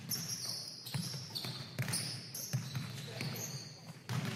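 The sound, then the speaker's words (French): A basketball bounces in a gym, giving a few sharp, separate thuds at an uneven pace, with voices talking underneath. “Ici, on joue au basket.”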